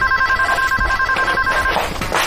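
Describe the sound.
A telephone rings with a steady electronic trill, loud and unbroken for most of the moment before it cuts off.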